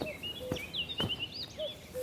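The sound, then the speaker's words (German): Birdsong from nightingale and cuckoo in a hedge-lined meadow on a former landfill, on a cool May morning. Bright, high whistled phrases and trills are laced with a few lower, short tonal calls over a soft background hiss. “Ein Naturparadies auf einer ehemaligen Müllkippe, wo Nachtigall und Kuckuck um die Wette singen.”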